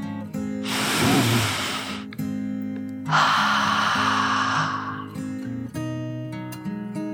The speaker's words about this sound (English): And then he took a deep dragon breath in and out.